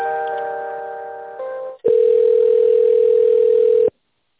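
Telephone line tones play while a call is transferred: a steady chord of tones, a brief dip, then a single loud continuous tone for about two seconds that cuts off abruptly into silence.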